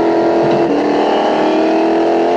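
Race car engine accelerating hard during a race, a loud, continuous, buzzing roar with strong steady harmonics that holds throughout.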